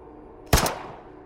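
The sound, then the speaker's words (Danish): A single gunshot from a black pistol: one loud, sharp crack with a short decaying tail, with no voices around it. “Hævede hånden og pegede på hende med en sort pistol. Så skød han.”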